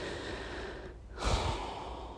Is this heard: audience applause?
no